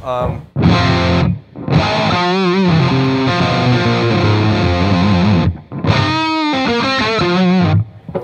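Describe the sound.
Overdriven electric guitar, a Les Paul on its middle pickup position with a warm tube-like tone, tuned down slightly and strung with Dunlop 11–50 strings. Three loud bursts of sustained, ringing notes and chords are separated by short gaps.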